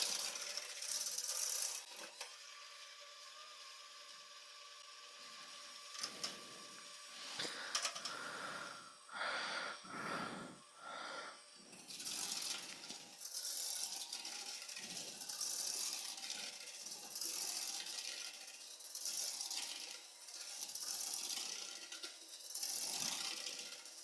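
An electric mixer runs at medium speed, beating wet ingredients in a bowl while being moved in circles: a faint, steady mechanical whir with rattling, grinding fluctuations throughout and no talk.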